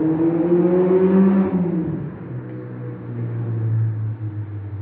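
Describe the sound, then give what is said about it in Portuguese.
A car speeds past on a Sunday afternoon with a loud engine drone, and its pitch drops sharply as it goes by. A steady low rumble continues afterward. “Acabei de dar um exemplo e passou um carro com muita pressa num dia de domingo, numa tarde de domingo.”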